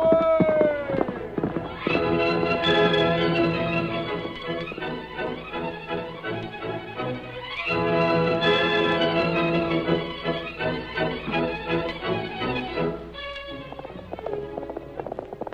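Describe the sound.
The horse Silver gives a single high, falling whinny at the start. Sustained tonal music follows and carries on at fairly even loudness.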